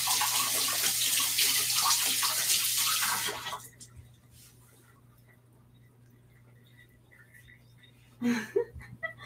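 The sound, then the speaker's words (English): Hands are washed under a running tap, with a steady rush of splashing water that cuts off after about three and a half seconds. A quiet stretch follows, then a few brief handling knocks near the end. “All right, so I'm gonna just wash my hands really quick.”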